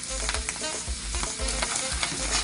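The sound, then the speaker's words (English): Tomato paste hits hot oil with a steady sizzle and crackle, while a spoon stirs in regular scraping strokes that give the sound a rhythmic pulse. “It's going to pop and splash because oil and water don't mix. Don't get excited. So then I'm going to add in my tomato paste.”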